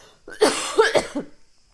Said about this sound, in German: Warte, ich muss husten.